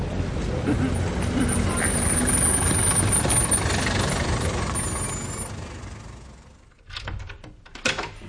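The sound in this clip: A taxi pulls up in the street with a steady, broad engine and road rumble that swells and then subsides, followed by a few short clunks.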